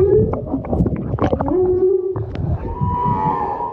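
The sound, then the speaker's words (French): Whale song rising from just beneath a boat at sea: loud, sustained low moaning tones that glide up and down in pitch, joined later by a steadier, higher tonal call. “on s'est très vite rendu compte qu'il y avait une baleine qui chantait, mais juste sous le bateau”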